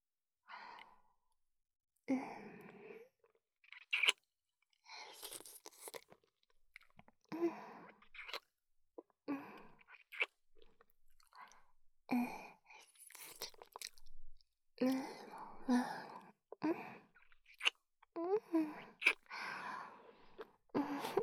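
Wet licking and mouth sounds in a close-up ASMR roleplay of licking sticky fingers: many soft smacks, slurps and breaths in irregular bursts separated by brief silences, with no speech.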